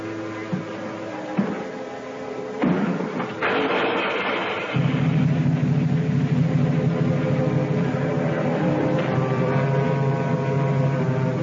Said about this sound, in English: Start the motor.